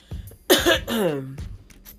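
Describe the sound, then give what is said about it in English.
A single harsh cough bursts out, followed by a drawn-out voiced throat-clearing sound, short and fairly loud. “Oh, I'm getting ready to cough.”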